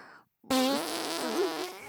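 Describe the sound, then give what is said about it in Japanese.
A long, buzzy fart breaks a brief silence and runs to the end, rasping and fluttering with a wavering pitch. “やだおなら臭い。 ほら、こいで。臭いおなら。”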